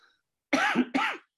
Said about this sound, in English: Sorry for the cough.